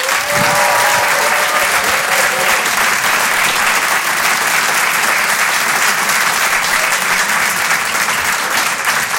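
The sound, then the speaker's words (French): A comedy club audience breaks into loud, sustained applause. The thick, continuous clapping holds a steady level for the whole stretch. “On peut l'applaudir très très fort lui aussi, Paco Pérez sur Rire et Chanson.”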